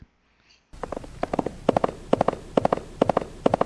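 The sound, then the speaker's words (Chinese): Galloping horse hooves, a fast, steady rhythm of clustered thudding beats repeating many times, starting abruptly after a moment of near silence. “哎，老师，我有听到马蹄声哎， 什么样的马蹄声？ 不停不停的马蹄声啊。”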